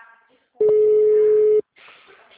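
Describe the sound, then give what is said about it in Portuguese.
A telephone tone sounds after a dropped call: one loud, steady electronic tone lasting about a second, with faint talk before and after it. “acho que caiu a ligação”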